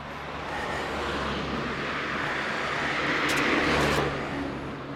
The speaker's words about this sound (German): so kann ich wenigstens hören, wie das Mikrofon das geregelt kriegt mit den Autos.